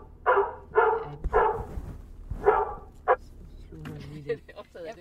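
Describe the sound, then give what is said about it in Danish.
A phone ringtone made of a dog barking sounds as a few short, sharp yaps in a loose rhythm, followed by people talking. “Altså, det er en ringelyd, det er en hund.”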